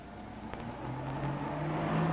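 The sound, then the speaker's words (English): A police car pulls up in the street, its engine a faint, low, steady hum that grows slightly louder toward the end. “He turns to the window and sees a police car pull up in the street below.”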